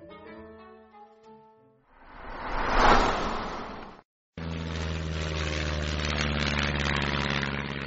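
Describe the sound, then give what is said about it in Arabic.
Old airplane engines roaring on a vintage aircraft: a rushing surge of noise, a short break, then a loud, steady roar with a deep, humming drone underneath. “محركات الطائرة العتيقة تهدر منذرة بتحولها إلى 1000 قطعة.”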